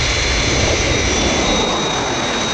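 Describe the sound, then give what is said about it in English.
A jet aircraft engine on final approach gives a loud, steady, broad roar with a faint high whine, holding unchanged throughout and alone. “Aircraft approaching glide path. 4 miles to threshold.”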